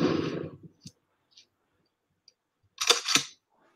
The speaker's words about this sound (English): Now we're going to try the thick boy 12 with these subsonic slugs we got here. Same deal, polycarbonate lid.